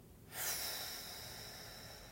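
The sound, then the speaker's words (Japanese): A long, slow exhaled breath during a relaxation breathing exercise: a soft, airy hiss that begins abruptly and then holds at an even, moderate level for nearly two seconds, with no talk. “ゆっくり吸っていきます鼻からでも口からでも OK です吸ってはい吐きますゆっくり吐きましょう”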